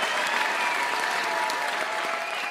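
Studio audience applause fills the moment with dense, steady clapping that stays loud and even throughout, thinning only slightly toward the end.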